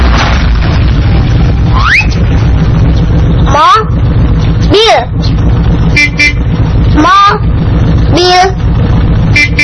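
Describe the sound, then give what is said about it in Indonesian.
Car passing by with a steady loud low rumble, and a few rising honk-like tones sounding at intervals over it. “Teman-teman, ada mobil lewat.”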